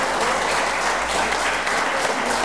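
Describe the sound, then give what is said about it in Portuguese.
A church audience applauding, a continuous thick wash of clapping at steady, fairly loud level from start to end without pauses. “Aplaudam ao Senhor. Oh, aleluia!”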